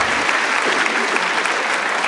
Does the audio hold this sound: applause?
yes